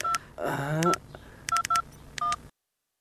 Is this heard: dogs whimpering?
no